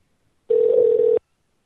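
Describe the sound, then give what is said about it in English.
A telephone tone during an outgoing call, one steady, loud beep lasting under a second, with silence before and after and no voices. “let's dial recruiting”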